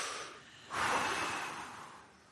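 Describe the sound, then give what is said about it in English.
A single deep breath makes an airy rush that swells suddenly, then tapers off slowly and softly. It is heard alone, with no talk. “Take a deep breath right now. Everybody breathe.”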